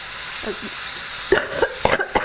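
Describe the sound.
Chili oil sizzling in a pan while cooking with chili, flour and added liquid: a continuous bright hiss with a few sharp crackles and pops near the end.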